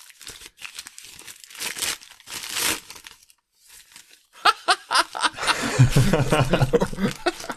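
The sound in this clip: Gift wrapping paper crinkles and tears as a present is unwrapped at Christmas time. The crisp rustling comes in irregular bursts, with soft chuckling heard toward the end.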